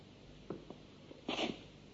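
A woman sneezes once, a short, sharp, breathy burst that stands out clearly against faint, quiet background sounds.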